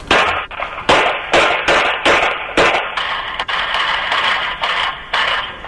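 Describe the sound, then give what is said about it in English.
Gunshots on Chicago's South Side, picked up by a Ring doorbell camera: many sharp, cracking bangs in an uneven burst, each loud report trailing off briefly before the next, with no voices. “We have the audio of the, as you pointed out, a Ring camera picking up shooting here in Chicago on the South Side just a few weeks ago.”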